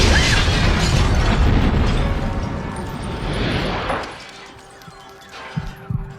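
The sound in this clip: A bomb blast in a drama scene: a loud, broad rumbling roar that slowly dies away over about four seconds, followed by quieter sound with a few faint pops.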